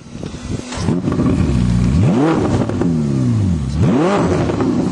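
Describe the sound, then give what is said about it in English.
Combustion engine of a 2021 Ferrari SF90 hybrid powertrain starts up and revs loudly. Two sharp blips rise and fall in pitch, with a rough mid-pitched idle between them and no talk. “There it is. That's your internal combustion component of this hybrid powertrain.”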